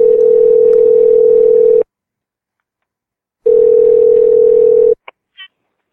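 A telephone tone plays while a call is being placed: two long, steady, low-pitched tones separated by a silent gap, then two brief higher beeps at the end.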